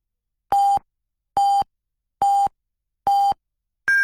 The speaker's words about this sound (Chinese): 综合广播为您报时，现在是北京时间15:00。